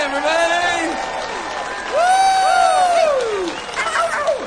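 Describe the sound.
Applause and cheering from an audience welcoming a performer on stage at a Branson country music show. Dense clapping runs throughout, with voices shouting and whooping over it.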